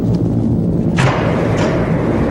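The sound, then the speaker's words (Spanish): Torpedo launched from a submarine: a single sharp whooshing burst over a constant loud low rumble, with a fainter second rush shortly after, and no talk. “Lanzamos el proyectil. ¡A toda velocidad! ¡Torpedo en el agua!”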